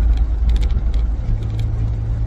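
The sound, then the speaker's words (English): Car engine and tire rumble in slowed highway traffic during an evacuation heading north out of the Galveston and Houston area: a steady, loud, low drone with a faint hiss above, and no voices. “Traffic slowed down a little bit. A lot of these vehicles around me are a part of the exodus.”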